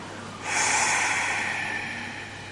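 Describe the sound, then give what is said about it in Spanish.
A long exhale released after a held breath during a guided meditation: a breathy, hissing rush of air that starts suddenly, then slowly fades, with no talk. “No exhales. Estás integrando energía. Y ahora sí, exhala.”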